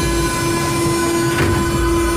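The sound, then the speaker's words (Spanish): A train running with a steady, loud rumble and sustained humming tones, plus a brief swell of noise midway; no voices. “El tren se detuvo”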